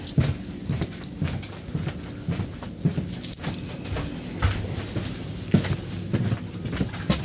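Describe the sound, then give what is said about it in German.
Keys clink and jangle as a train driver pulls out a key at the front driver's cab of a train. Several short metallic rattles and clicks sit over a low, steady rumble. “Schon mal den Schlüssel zücken.”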